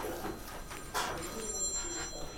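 Mobile phone ringing with a call from an unknown number, a tonal electronic ringtone with high, sustained pitches that carries through the whole clip.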